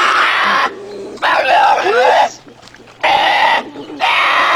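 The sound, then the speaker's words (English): A baby bear cries to be fed with loud, harsh bawling squeals and groans that waver and bend in pitch, coming in several bursts with short pauses between. “That is a baby bear crying to be fed. Really? It certainly is. Yeah. That was a pissed off bear.”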